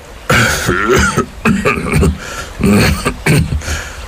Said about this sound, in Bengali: বার কয়েক কেশে গলাটা সাফ করে নিয়ে ঠাকুরদা বলতে আরম্ভ করলেন